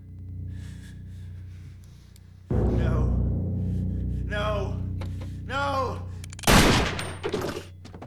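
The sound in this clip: A pistol shot in a room during a tense scene: a sudden, sharp, loud burst that stands out after a stretch of low hum and other indistinct sounds.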